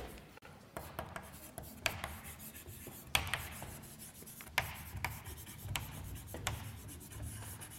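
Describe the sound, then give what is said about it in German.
Chalk or marker writing a word on a board, quiet scratchy strokes in short irregular bursts with several small tapping hits. “So, ich schreibe jetzt kurz, weil das Wort wahrscheinlich lang ist, nur Wahrscheinlichkeit mit diesem Apostroph hier.”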